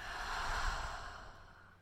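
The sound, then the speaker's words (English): One slow, deep breath in and out during a guided meditation: a soft, airy rush that swells and then fades away, faint and without talk. “Deep breath in and out.”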